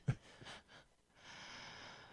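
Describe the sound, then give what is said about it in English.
A deep breath drawn by a person: a sustained, soft, airy rush of air lasting about a second, with no talking. “You're taking a deep breath.”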